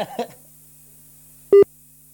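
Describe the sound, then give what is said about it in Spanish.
A telephone ringing tone on an outgoing call: one short, steady, mid-pitched beep that sounds loud and alone against a quiet line. “Vamos a ver si es que está al pendiente del teléfono. Ahí al menos está sonando.”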